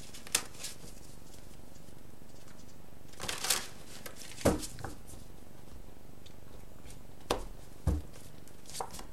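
Tarot cards being shuffled: quiet, sparse papery riffles and soft card clicks in a few short bursts separated by low background noise.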